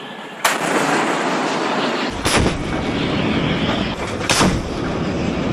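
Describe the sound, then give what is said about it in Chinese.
Three booming blasts from a warship's naval gun firing at targets in a live-fire gunnery drill. Each is a sharp, loud report with a rumbling tail, spaced about two seconds apart. “在舰炮射击科目中，遵义舰率先出战，在规定时间内成功命中全部目标。”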